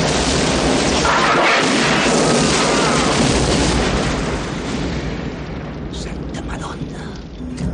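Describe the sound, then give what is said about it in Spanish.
Explosions tear through an interior set in a 1996 action film, building to a dense, continuous roar of booming, crackling blasts that stays loud before easing slightly toward the end. “El que está en la grúa también dispara haciendo que todo explote en el interior.”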